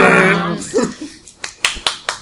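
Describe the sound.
Hands clap in excitement. A voice at the start is followed by a few sharp, quick claps.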